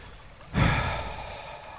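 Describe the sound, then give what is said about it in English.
A deep exhale during a church service, rising suddenly into a long, breathy whoosh that slowly tapers off with no talking over it. “So let's exhale.”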